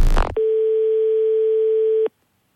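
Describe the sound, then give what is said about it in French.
Telephone ringback tone on an outgoing call: a brief loud noisy burst, then one steady, loud single-pitched tone held for about 1.7 seconds before cutting off into silence. “Eh ben moi j'appelle carrément la gendarmerie de police dans ce cas.”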